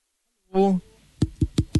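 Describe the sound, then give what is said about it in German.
Four dull knocks on a microphone, evenly spaced in quick succession, follow a brief voiced sound at the start. “bist du wirklich jemand, bei dem man ins Mikrofon klopfen muss, dass er antwortet?”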